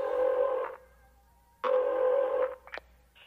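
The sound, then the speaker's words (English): Telephone tones as a woman calls 911: two long, steady electronic tone bursts with a pause between them, then a brief higher chirp. “when she calls 911 at the end, it's Pee Wee who answers”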